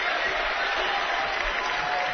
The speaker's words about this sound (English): Doherty goes to the bench with a big round of applause for the Bearcat fans right behind the Northwest sideline